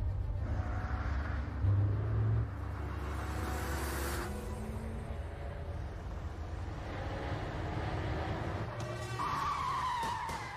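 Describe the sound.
A car on new tires skids to a stop with a long, harsh rubber screech over a loud, rumbling engine roar, sustained throughout.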